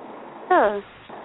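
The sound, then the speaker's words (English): A dog gives one short, high yelp that slides downward in pitch, standing out briefly over a low, steady background murmur. “My dog says, show's over.”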